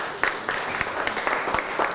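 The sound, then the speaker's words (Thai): Classmates clap in class, a short burst of uneven, brisk hand claps with sharp individual strikes standing out over the steady clapping. “เพื่อนตอบถูกไหมครับถูกต้องปรบมือให้เพื่อนหน่อยครับ”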